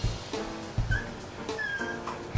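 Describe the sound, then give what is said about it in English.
A dog whimpering, with a few thin, high whines that waver and trail off, faint against a background of low thumps and rustling. “calm down. My poor dog.”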